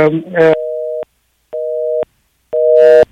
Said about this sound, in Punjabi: I think ਉਹਨਾਂ ਦੀ line ਜਿਹੜੀ ਹੈ ਡਿਸਕਨੈਕਟ ਹੋ ਗਈ